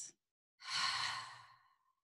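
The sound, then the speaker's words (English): A deep breath taken in and out during a calm belly-breathing exercise. A short, faint breath sound comes first, then a long, airy, breathy exhale of over a second that gradually fades out. No one speaks. “taking a moment to inhale, belly rises.”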